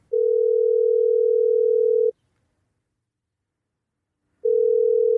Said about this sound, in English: It is going to a fax machine.